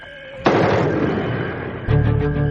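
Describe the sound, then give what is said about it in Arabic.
A single loud rifle shot bursts out in a TV drama, its blast decaying over more than a second before a low, steady humming tone takes over. “الصوت ده طلقة بندقية.”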